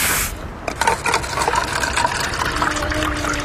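Drinks pour into glasses as a steady, splashing, gurgling liquid wash that runs almost the whole clip after a brief noisy burst at the start.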